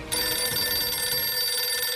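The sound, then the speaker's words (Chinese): A telephone rings for an incoming call with a bright, steady bell-like tone. It starts almost at once and holds unbroken and loud for the full two seconds. “结果不一会儿，黄乔松就接到了赵世林打来的电话”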